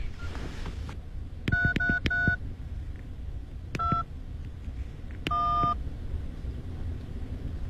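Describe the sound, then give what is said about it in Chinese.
Touch-tone beeps of a telephone number being dialed: a quick run of several tones, then a single beep, then a longer one, all over a steady background hiss. “对，我给乔警官打电话。”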